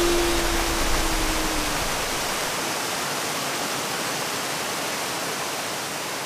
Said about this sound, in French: Max et Simon dérivent vers une chute d'eau. La gourmandise les conduit tout droit dans le vide.